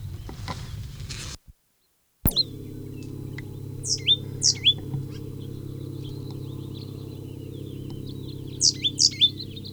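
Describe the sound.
Sharp, high chirps of a bird in a pasture come in two brief clusters, one early and one near the end, over a steady low hum.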